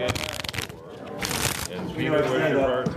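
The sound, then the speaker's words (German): Playing cards for a Schafkopf game are shuffled poker-style in a riffle, with crisp rapid fluttering bursts of card edges snapping together. Voices are heard alongside. “auch wenn die Karten in Pokermanier gemischt werden”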